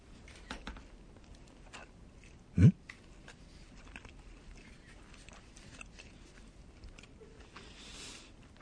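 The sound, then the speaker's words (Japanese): Faint chewing of firm yellowtail (buri) pieces cut to pork-skewer size, eaten with leek; soft, irregular mouth sounds broken by one sharper, louder bite. “じゃあブリからスタジオで食べるの久しぶりなんて言って食べますよ。”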